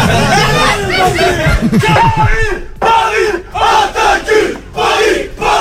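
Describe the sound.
Football fans chant to welcome Vitinha, Olympique de Marseille's new signing, at Marseille airport. The loud, rhythmic crowd chanting rises and falls in repeated bursts, with yelling and excited cheering mixed in.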